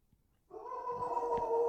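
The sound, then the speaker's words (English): A dog howling: a single drawn-out, tonal howl that starts after a brief quiet moment and holds a steady pitch to the end, fairly faint. “Jeez, what is that? What is happening right now? That was a howl.”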